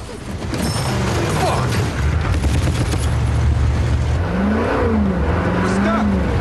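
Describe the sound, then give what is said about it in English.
A military Humvee stuck after driving over a crater keeps its engine revving under a steady heavy rumble and mechanical rattling. Rising revs surge near the end. “The vehicle just manages to clear a crater it drives over. The second Humvee isn't so lucky and comes to a sudden halt.”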